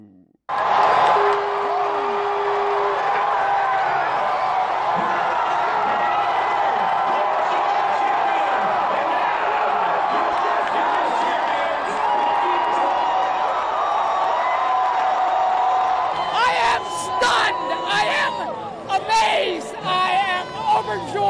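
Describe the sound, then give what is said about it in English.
Baseball fans at a Nationals Park watch party cheering the Washington Nationals' World Series win over the Houston Astros, a continuous crowd roar with shouting, whoops and chatter that turns more broken toward the end. “That overjoyed fan cheered at Nationals Park, just a short walk from our Voice of America headquarters here in Southwest Washington.”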